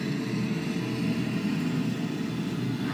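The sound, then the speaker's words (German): A vessel passing overhead, recorded underwater, gives a steady low rumble of engine and propeller with an even loudness throughout. “Jetzt ist es direkt über uns und jetzt fährt das Fahrzeug weg.”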